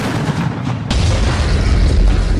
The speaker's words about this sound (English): In Philadelphia, thieves used dynamite to blow up the ATM.